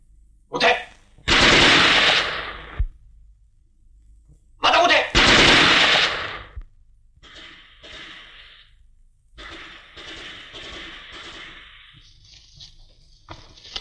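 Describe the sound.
Machine-gun fire rattles out in two long, loud bursts, followed by several shorter, quieter bursts of shots with brief pauses between them.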